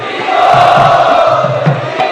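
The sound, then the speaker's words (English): An audience chants loudly in unison to welcome a speaker, forming a steady, sustained droning mass of voices with no break. “So let us welcome His Grace Chaitanya Charan Prabhu by loudly chanting.”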